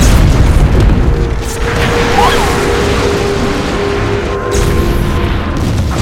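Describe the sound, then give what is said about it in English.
A flying saucer exploding in a burst of light and fire: a loud, sustained explosive boom with a dense, rumbling roar that fills the whole stretch without a break. “Everyone looks up in awe as the flying saucer explodes in a spectacular burst of light and fire.”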